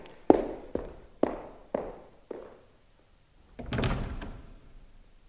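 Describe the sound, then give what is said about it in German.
A door is closed quietly without being slammed. Five soft, evenly spaced thuds fade one after another, followed after a short pause by a longer, louder swishing sweep. “Er hat nicht mal die Tür geknallt.”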